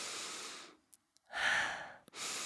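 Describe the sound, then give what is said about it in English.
Airy breaths drawn through the nose of a person whose nose had been blocked for a week, breathing freely again after meditating. Three long, soft, hissing breaths are separated by quiet gaps with a couple of faint clicks. “I mean, like, I can breathe through my nose right now. Listen.”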